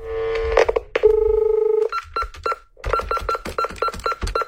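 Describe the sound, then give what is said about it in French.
A telephone number is dialed: a few short tones and a long steady tone, then a quick run of many short key beeps in an uneven rhythm. “J'appelle tout de suite Delphine.”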